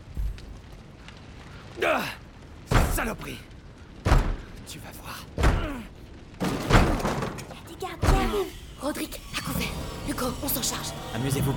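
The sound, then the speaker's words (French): Heavy blows land on a locked door in a burning house as someone tries to force it open, a series of loud thuds at fairly regular intervals with voices talking between them. “Allez, Oh, c'est fermé Je vais l'enfoncer.”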